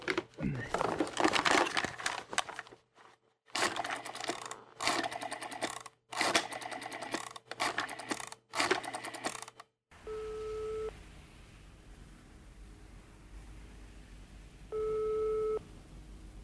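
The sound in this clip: Telephone rings in a German radio drama: two short, steady electronic ring bursts with a clear tone, several seconds apart, following a stretch of loud, rapid mechanical rattling.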